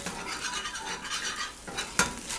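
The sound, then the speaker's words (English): Curry paste is stirred into coconut milk in a pan, giving a faint, continuous scraping swirl of steady spoon strokes, with one sharper clink of utensil against the pan near the end. “a couple of tablespoons of coconut milk in each pan and a couple of tablespoons of the curry paste. Not quite one-to-one, a little more paste to milk. So I'm stirring the blended one.”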